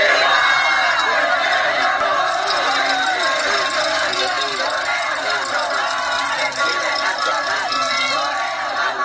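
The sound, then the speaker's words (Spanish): A huge crowd of Mexican football fans chants and cheers at a street celebration, a dense, loud wall of voices sustained throughout without pause. “hubo uno, un cántico que pasó del coreano hermano ya eres mexicano a la euforia y al olvido de esta extraña hermandad. Escuchemos.”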